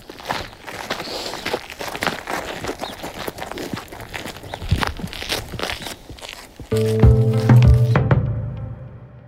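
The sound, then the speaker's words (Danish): Footsteps crunch along a coastal path with woods on one side and a clipped lawn on the other, on a walk to look for morels. Many steady steps sound, and a loud, steady humming tone joins near the end. “Nå, men lad os gå. Og vi skal gå et stykke vej her øh, langs med kysten”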